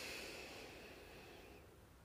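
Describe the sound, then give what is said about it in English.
A slow nasal inhale during a guided breathing exercise: a steady, airy hiss through the nose lasting about two seconds and easing off slightly toward the end. “One more time through your nose.”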